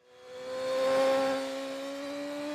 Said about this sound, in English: I wish I could say that was me riding that double R on the limit, but it was Peter Hickman.